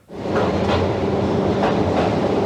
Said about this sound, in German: Langsam fährt die kleine Bahn schräg hinunter in den Tunnel, bis in eine Tiefe von 700 Metern.